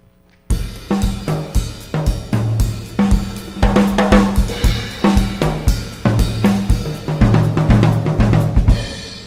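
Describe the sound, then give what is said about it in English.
A calypso rhythm played on drums in a jazz setting: a steady, syncopated pattern of crisp hits over recurring low tom-like tones, with many evenly spaced strokes that keep a lively repeating groove throughout. “It, just in the Latin tinge area that we were talking about, here's another. This is kind of a calypso rhythm.”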